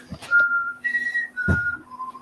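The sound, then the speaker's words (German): A whistled tune of a few clear, sustained notes that step up, hold and then drop to a lower final note, with a couple of soft low thumps alongside. “Machen wir Pfeifenmusik.”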